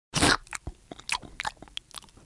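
Crunching bites of a zombie eating: one loud, crisp bite opens, then many smaller crunching chews follow in an uneven rhythm.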